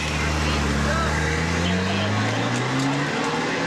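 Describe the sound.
The engine of a car driven by Lewis Hamilton at Monza, Italy, drones loud and continuous, its pitch climbing slowly as it accelerates without full throttle.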